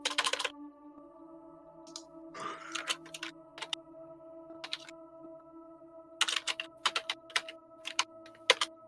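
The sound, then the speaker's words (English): Computer keyboard typing in a few short bursts of quick, crisp key clicks separated by pauses, over a steady low electronic hum. “So much work to type in.”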